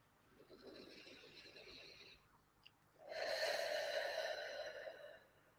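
Slow guided breathing from a relaxation exercise, drawn in through the nose and let out through the mouth. Two faint, airy breaths are heard alone, separated by a short pause, the second louder and brighter.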